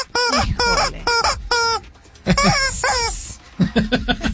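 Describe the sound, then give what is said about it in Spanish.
A chicken-crowing sound effect marks a soccer goal: many loud, harmonic squawking calls in quick bursts, each sweeping downward in pitch, with a short lull in the middle before more calls follow. “¿Quieren que cante el pollo? ¿Quieren que cante el pollo? A ver, que cante el pollo, que cante el pollo.”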